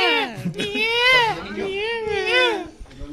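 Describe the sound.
A baby's crying wail sampled in an instrumental song rises and falls in a series of high, tonal sobbing phrases, loud and continuous, with brief catches between cries.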